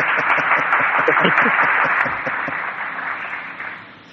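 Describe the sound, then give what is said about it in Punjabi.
Loud applause from an audience at a Punjabi singing event, a thick roar of clapping with a voice speaking over it early on, then tapering off steadily toward the end. “ਜੋਰਦਾਰ ਤਾੜੀਆਂ ਮਾਰਦੀ ਇਧਰੋਂ”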